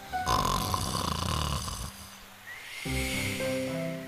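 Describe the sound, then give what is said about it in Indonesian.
A wolf sleeping under a tree in a children's fairy tale snores loudly, with one long, rough, rumbling snore that turns into a higher, tonal, whistling breath. “Serigala mendengkur keras sehingga membuat cabang pohon bergoyang.”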